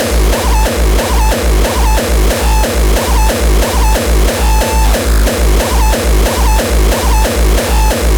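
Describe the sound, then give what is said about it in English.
A heavily distorted drum machine beat thumps out a fast, perfectly even pulse of many loud, crunchy hits that repeat without pause, with no voices. “Does your drum machine sound like this? You need it to sound like this.”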